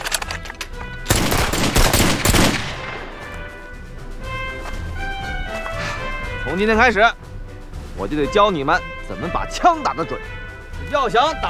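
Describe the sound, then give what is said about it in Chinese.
A volley of rifle fire from Taiyuan arsenal copies of the Japanese Type 38 rifle cracks out as a dense, loud burst lasting a second or two, followed by people speaking. “瞄准了，给我打！”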